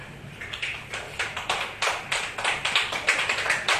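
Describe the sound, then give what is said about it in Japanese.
Audience clapping to vote for a performer: many sharp, distinct claps from a small group, steady and fairly loud throughout with no voices. “椿城さんが良かったと思う方拍手。”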